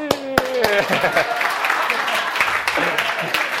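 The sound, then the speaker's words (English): A church audience claps in a patter of many hands that carries on throughout, mixed with a speaking voice. Tonal sounds ring briefly near the start. “Not that, no, you're not applauding me, we're applauding God, right?”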